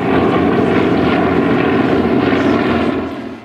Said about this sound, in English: 6 aircraft flew in formation for Robert Hampton Gray and over a new monument to Canada's most widely known naval aviator.